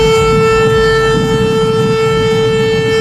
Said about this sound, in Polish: Syrena alarmowa w weekend wywołała konsternację na Lubelszczyźnie. Niektórzy szukali schronienia, inni nic sobie z tego nie robili. Eksperci zwracają uwagę, że modulowany sygnał trwający 3 minuty oznacza niebezpieczeństwo i nie można go lekceważyć.